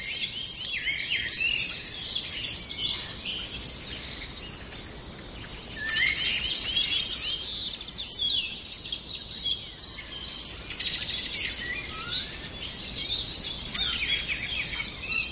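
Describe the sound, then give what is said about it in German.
A common starling sings a long, varied stream of high whistles mixed with crackling and rattling phrases, continuous and lively, with sharper whistled notes standing out between the busy chatter. “Da diese hohen Pfiffe. Piep. Dieses Knistern und Knattern, all das ist Star. Der Star unter den Vögeln, weil er so viele Stimmen imitieren kann.”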